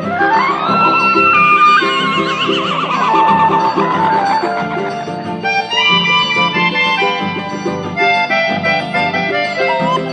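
A horse's whinny, quavering and falling in pitch, sounds over loud, continuous country music with a band near the start and lasts a couple of seconds.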